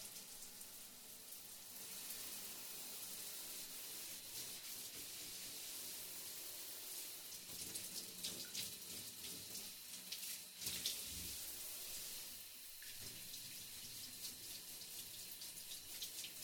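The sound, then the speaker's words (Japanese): Water runs over a body to rinse it while bathing, a steady stream of splashing and pouring that swells with a few louder surges partway through, with no voices. “お次は体の方を流していきますよ。”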